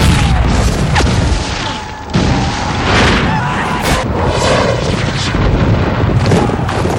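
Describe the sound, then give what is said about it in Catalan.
Heavy booms and crashing rumble from a gunpowder magazine exploding during a fortress battle: loud, dense, sustained noise with repeated deep impacts. “El nostre polvorí havia volat.”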